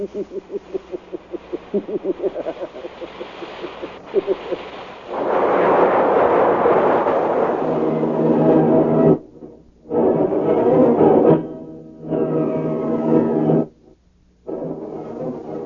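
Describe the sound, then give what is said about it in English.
A dramatized rocket ship crashing onto a planet: a rapid pulsing engine throb gives way to loud roaring crash bursts, several of them broken by brief silences. “The rocket ship hits the planet.”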